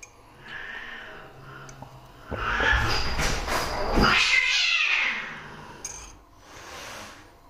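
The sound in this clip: Cats meow and caterwaul in a few loud, drawn-out yowls, the middle one longest and strongest, with no talk over them.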